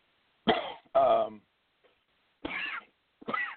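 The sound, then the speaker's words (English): Someone coughs and chokes, blamed on allergies, giving four harsh, separate bursts with short silences between them. “Damn allergies. You see, you're choking on it.”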